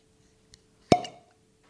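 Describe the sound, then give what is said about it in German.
A new bottle opens with a single sharp, loud pop and a brief ringing tail, preceded a moment earlier by a faint small click. “Das war schon amtlich. Gutes Ploppen. Gutes Ploppen. Ja, nicht schlecht. Der Sommer ist da und wir machen eine neue Flasche auf.”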